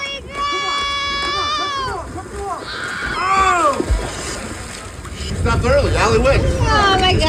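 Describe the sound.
Water splashing in a hot tub during a race: a broad, rushing burst of splashes fills the last couple of seconds, mixed with loud, excited, high-pitched shouting voices throughout.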